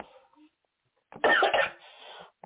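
Coughing from asthma: a short, harsh burst of a few rough coughs after a quiet moment, loud and raspy, trailing into a weaker breathy cough before stopping.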